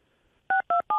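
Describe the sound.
Telephone keypad dialing tones as a call line connects: three short, even, steady-pitched beeps in a quick regular rhythm after a brief near-silence.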